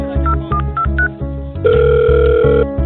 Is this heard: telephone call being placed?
yes